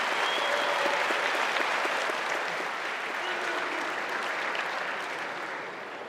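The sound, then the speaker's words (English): Applause at a combat sports event after a fighter wins by choke submission: a loud, continuous crowd of clapping hands that holds steady for several seconds, then eases slightly toward the end. “Applause.”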